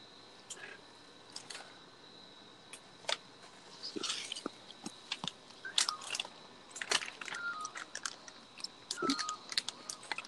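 Crunchy chewing of seeds seasoned with adobo: many irregular, sharp cracks and crunches scattered throughout, fairly faint, with no talking.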